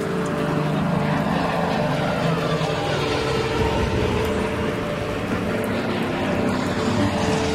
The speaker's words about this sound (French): L'atterrissage est rude et il s'en faut de peu pour que l'appareil ne sorte de la piste